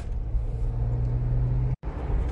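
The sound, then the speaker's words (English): Low engine rumble and road noise inside a car being driven, a steady deep drone with a brief dropout near the end. “Sorry, Sammy, dumbass, was trying to get through an intersection. This is why I maybe shouldn't record while I'm driving.”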